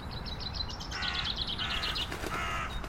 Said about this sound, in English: Blackbirds everywhere now. And I have to say, one of my favourite birds, because the blackbird is the one bird that will find itself a singing post and